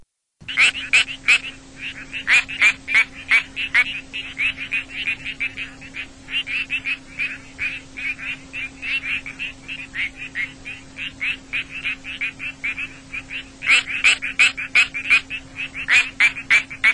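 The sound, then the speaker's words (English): A quacking frog (Crinia georgiana) calls in many short, duck-like quacks repeated in clustered runs throughout, over a steady low hum. “That was our dear, dear friend, the species, now I'll try to pronounce this correctly, Crinia georgiana,”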